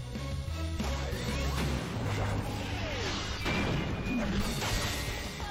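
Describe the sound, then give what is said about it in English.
Swords clash in a fight scene: a few sharp impacts and whooshing swipes cut through a dense, loud mix of battle effects. “That sword fight is kind of cool.”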